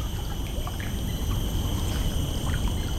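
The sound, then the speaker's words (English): Steady watery splashing and rustling as birds bathe at high tide, flapping their wings to wash their feathers, forming a continuous, fairly even wash of noise with scattered small splashes and no talking. “And those making the flapping sound, that is washing their feathers”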